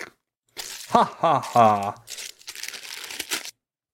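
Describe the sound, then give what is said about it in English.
Crinkling and tearing of something being unwrapped, heard as a few short, papery bursts that follow a brief voiced sound from a person. “This is unwrapping.”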